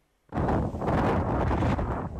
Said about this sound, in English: Crete and a lethal mix. Fire and storm force winds.